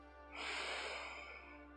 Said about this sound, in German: Richte deinen Fokus auf deine Atmung und nimm einen ganz tiefen Atemzug durch deine Nase ein